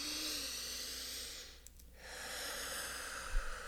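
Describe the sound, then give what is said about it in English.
Deep ocean-like breathing, slow breaths drawn through a narrowed throat for a meditative breathing practice. A long, steady, breathy hiss dips into a brief pause, then another long hiss follows, with no talk. “I'm a big fan of really kind of deep, like oceanic breaths, right? So you're like,”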